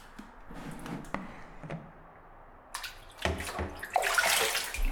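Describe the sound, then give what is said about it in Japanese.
Warm water runs and splashes over hair as it is rinsed after shampooing, starting as light scattered trickles and building into a louder, steady rush of pouring water toward the end. “シャンプー終わりましたので、お湯で流させていただきますね。”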